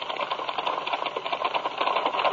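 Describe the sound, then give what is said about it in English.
Typewriter typing, a dense run of many quick, light keystrokes layered over a steady hiss, with no pauses or talk. “Lorna's doing a little typing for me”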